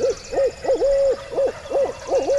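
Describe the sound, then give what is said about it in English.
A man's voice imitates a barred owl, hooting through cupped hands in the rhythmic 'who cooks for you all' pattern. A steady series of clear, mid-pitched hoots, one slightly drawn out, is heard alone. “He cups his hands around his mouth and hoots a perfect "Who cooks for you all" of the barred owl.”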